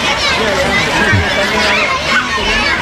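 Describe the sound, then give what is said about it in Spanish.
Children murmur and chatter in a dense, steady babble at a public school in Oviedo as Queen Letizia shakes hands with pupils. The mingled voices stay fairly loud throughout without any single voice standing out. “Este murmullo que estábamos escuchando era el momento en el que daba la mano a algunos niños que han querido regalarle un libro, pequeño azul, pequeño rojo, elaborado, ilustrado por ellos mismos.”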